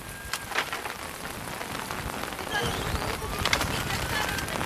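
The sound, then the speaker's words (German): Heavy rain pours down during a thunderstorm over a city square in Kyiv. It makes a dense, steady hiss of drops with occasional sharper spatters, and the downpour keeps up the whole time. “öffnet sich der Himmel und ein Gewitter bricht los. Im strömenden Regen geht geisterhaft der Auftritt des Präsidenten unter.”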